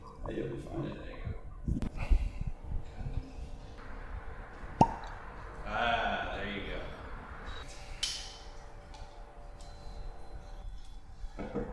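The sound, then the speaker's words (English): A single short, sharp pop as a bottle of rum is cracked open, heard amid people talking and some handling noise. “So it's a lot of talk of this rum. Are you going to crack this bottle or? Let's go ahead and crack this open then.”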